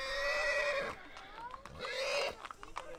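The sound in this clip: A horse whinnies in loud, drawn-out calls with bright, wavering harmonic tones that rise and fall, repeated twice in quick succession.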